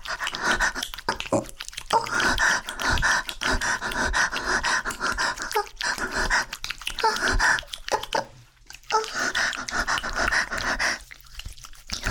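A small dog pants in rapid, rhythmic, breathy puffs that continue steadily for about twelve seconds. There is one brief pause near the end.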